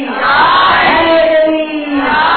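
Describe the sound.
A crowd shouts the Naara-e-Haidari religious slogan in response to a call, a loud, sustained unison roar of many voices that swells and wavers for a couple of seconds.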